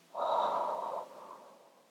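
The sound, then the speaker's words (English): A deep breath drawn in through the nose during a guided relaxation exercise, followed by a softer, trailing exhale. Quiet, airy and alone, with no talk. “Inhale it through your nose. And then a long exhale.”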